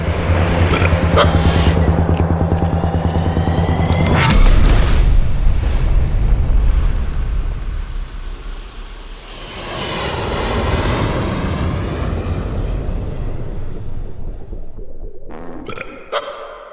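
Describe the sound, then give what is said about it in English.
Roaring engine thrust of a spacecraft pod launching. A loud, sustained rumble swells to a peak with a heavy boom, eases off, then surges again in a second whooshing roar before cutting off. “Launching pod in Three, two, one.”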